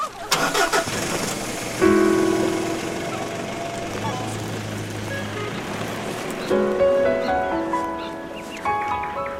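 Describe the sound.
A car engine starts up in a vehicle loaded with planting equipment: a starter cranks, the engine catches and then settles into a steady mid-pitched running hum, with a brief swell in revs later on.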